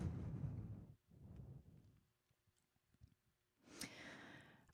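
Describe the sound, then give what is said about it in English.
A deep breath taken before spoken affirmations: soft, breathy airflow in a few long swells, quiet and with no talk. “So I'm going to go take a deep breath right now.”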